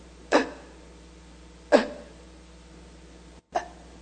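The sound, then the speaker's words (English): A voice imitates gasping, struggling breaths: three sharp, rasping gasps, each a sudden burst that fades quickly, spaced over a few seconds with near silence between and no words. “I'll show you how I had to breathe. It was like this. I had to go...”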